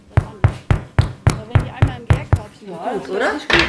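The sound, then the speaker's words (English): Knuckles knock on freshly baked bread loaves to test whether they are done, the oven holding about 20 loaves at a time. A steady run of hollow knocks is followed by a short stretch of voice and then one last knock. “jetzt machen wir mal die Klopfprobe.”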